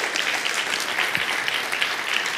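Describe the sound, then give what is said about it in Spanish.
Group clapping hands together at a prayer gathering, many people applauding at once in a steady, even patter of claps that carries throughout. “Primero damos unas palmas todos juntos.”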